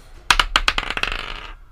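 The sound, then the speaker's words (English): Dice are rolled onto a hard surface: a few sharp, bright clacks as they bounce, then a quickening rattle that fades as they settle. “One moment while I grab actual dice. I'm gonna use my trans dice.”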